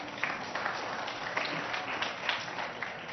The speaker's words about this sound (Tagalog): Palakpakan natin naman.